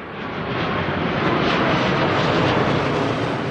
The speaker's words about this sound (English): Judging by the way that plane came through, I would say that you really are right under the flight path here. Yes, it is very loud. It's as if you were standing on the runways.